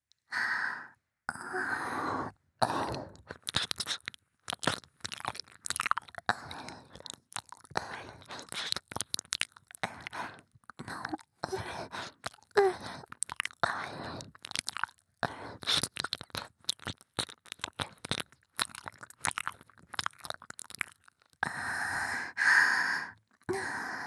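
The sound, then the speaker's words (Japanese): Close ASMR ear licking on the right ear: wet, smacking mouth sounds and soft slurps in irregular bursts, broken by short pauses and breathy sighs and exhales. “夢中になって舐めていたら、右耳がすっかりふやけてしまいましたね。”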